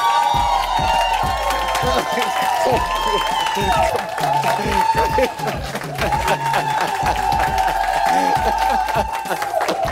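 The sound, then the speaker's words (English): A studio audience cheers, whoops and applauds as a Grammy-winning gospel singer comes out as a guest, a dense, steady wash of clapping and shouts with a voice calling out over it. “Yolanda Adams, lady. Give it up for her now. Come on now.”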